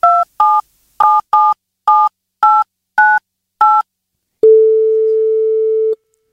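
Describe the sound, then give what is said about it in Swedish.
A telephone is dialed to call someone: eight touch-tone beeps sound in a steady rhythm, followed by one long, loud, steady line tone. “Kan vi ringa henne och du kan säga hej?”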